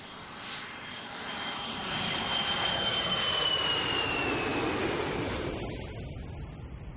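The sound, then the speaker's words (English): An aeroplane flies overhead above woodland: a broad engine roar swells over the first couple of seconds, holds loud with a faint high whine, then eases away toward the end, with no voices. “Do you think that was a fire engine or an aeroplane? If you said an aeroplane, you're totally right.”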